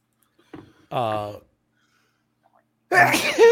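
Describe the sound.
A single abrupt sneeze with a short breathy lead-in, followed after a brief silence by a person speaking.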